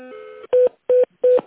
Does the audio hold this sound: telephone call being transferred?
yes

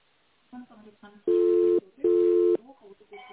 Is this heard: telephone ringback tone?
yes

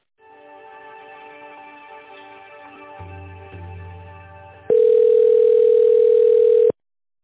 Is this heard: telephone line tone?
yes

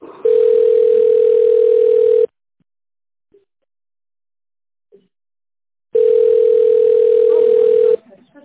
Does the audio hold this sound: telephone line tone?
yes

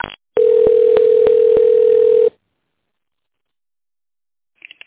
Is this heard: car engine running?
no

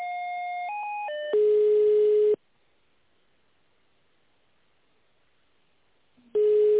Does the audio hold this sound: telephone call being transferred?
yes

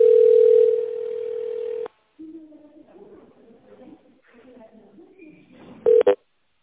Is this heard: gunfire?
no

